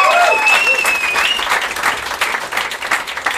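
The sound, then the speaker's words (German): An audience gives a round of applause for a man who prepared the running order. Lively, loud clapping builds into a steady crackle of many hands, with a short whistle near the start. “Kleiner Applaus für den Herrn für den Redaktionsplan.”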